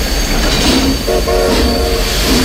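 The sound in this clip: A train at a railway station makes a loud, continuous rumble, and a tonal horn sounds through the middle of the passage; no voices.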